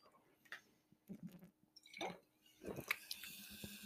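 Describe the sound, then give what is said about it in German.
Someone takes a quick sip of a drink, making a few soft, wet slurping and swallowing sounds. They are quiet and irregular. “Ich muss kurz einen Schluck trinken.”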